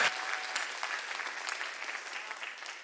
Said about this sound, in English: Get one standing ovation.